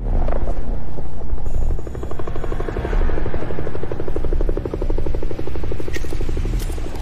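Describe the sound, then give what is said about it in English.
A helicopter hovers overhead, its rotor a loud, steady, rapid chopping drone that runs throughout with a few brief dips in level. “Now, one figure signals to the helicopter overhead.”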